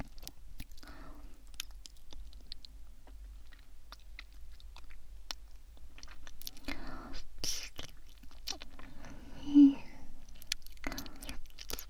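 Faint chewing of food, with soft irregular wet clicks and small crunches scattered throughout, accompanied by quiet breathy sounds.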